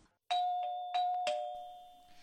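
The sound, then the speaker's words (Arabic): A doorbell chiming with a few bright strikes on a single sustained tone, each ringing on and slowly fading, alone with no voices. “وفعلا وبعد دقائق من الموعد سمع الكل جرس الباب يطرق.”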